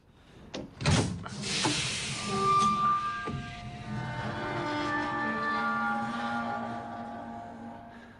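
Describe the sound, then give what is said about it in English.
Closed hatch in a hull swinging open: a sharp clunk, then a long metallic groan with lingering ringing tones that fade slowly. “The hatch swings open. He looks inside.”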